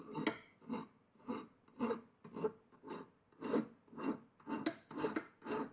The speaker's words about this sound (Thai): หลักการตะไบนะครับเราใช้วิธีการถูไปด้านหน้าอย่างเดียวนะครับ